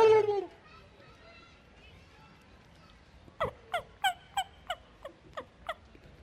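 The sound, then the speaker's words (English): A wild turkey gobbler gobbles from its roost in a tree. A loud call opens, then after a quiet gap comes a rapid series of eight sharp, rattling notes. “You get gobbler fires up. He gobbles over in his tree, and then they're back and forth. Oh, there it was,”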